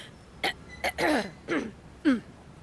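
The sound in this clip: A person clearing their nose and throat to decongest: several short, forceful snorting and hawking bursts in an uneven rhythm, the later ones longer and rougher.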